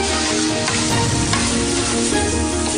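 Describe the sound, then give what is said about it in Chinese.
Loud, continuous sizzling as chili, Sichuan pepper, ginger slices and bean paste are stir-fried together in a wok, with scraping stirring strokes over the constant hiss. “再把辣椒、麻椒、姜片、豆瓣酱一起炒香”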